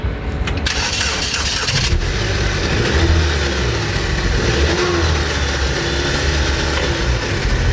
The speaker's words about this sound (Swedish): Ni ska få höra en av de här bilarna som säljs ut nu då på auktion. Det här är en silvrig Saab av lite äldre modell som låter så här.